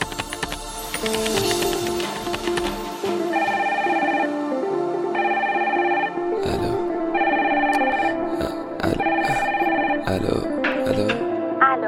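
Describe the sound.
A telephone rings with an electronic ringtone, repeating a short, bright melodic pattern several times in steady cycles, with a few soft clicks around it.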